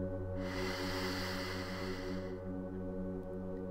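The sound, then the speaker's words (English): A long, deep inhalation during a breathing exercise makes a steady breathy hiss of about two seconds over a constant low droning hum. “Mindfully exhale. And one more time in.”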